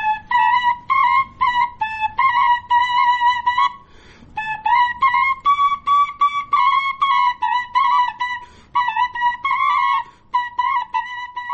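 A pair of shepherd's flutes played at the same time by one player, giving bright, breathy, high notes in quick repeated phrases with short trills and brief pauses, clear and unaccompanied.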